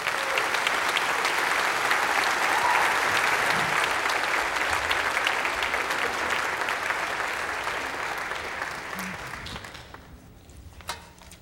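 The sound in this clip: A church audience applauds to welcome a preacher back, a dense, steady clapping that holds for several seconds and then thins and fades out near the end.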